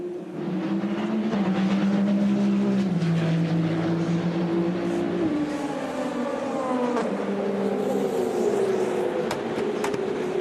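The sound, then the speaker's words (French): A BMW race car pulls out of the pit lane, its engine a loud, continuous harmonic drone whose pitch shifts in a few steps as it moves off. “Aussi la BMW hein, de Sheldon van der Linde qui est toujours d'ailleurs dans les stands. Voilà, qu'on voit actuellement sortir de la voie des stands.”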